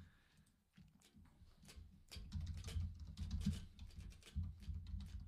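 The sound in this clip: Typing on a computer keyboard: a quick, irregular run of quiet key clicks and taps that grows busier partway through, heard alone without talk.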